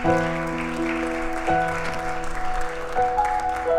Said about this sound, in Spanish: Un aplauso a Cristina